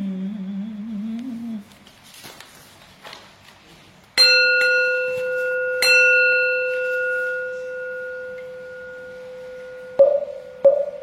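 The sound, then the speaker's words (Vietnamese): Temple bell strikes twice with loud, full tones whose long metallic ring sustains and slowly fades, then two lighter taps near the end. A voice is heard briefly at the start before the bell. “Chuông thẩm thiết kêu vang hồi ấm lạnh”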